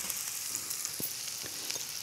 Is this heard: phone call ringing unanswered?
no